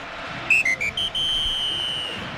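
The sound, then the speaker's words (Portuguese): A referee's whistle ends the first half of a football match between Flamengo and Mirassol at the Maracanã: a few short, shrill blasts, then one long sustained blast over a steady crowd murmur. “O árbitro apita pela última vez na primeira etapa.”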